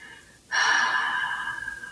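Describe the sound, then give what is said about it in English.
A deep breath taken during a guided relaxation exercise: one long, airy breathy hiss that starts suddenly and holds steady for about a second and a half, alone with no talking. “Picturing your stress as a color, breathing in here, deep inhale, letting it all go.”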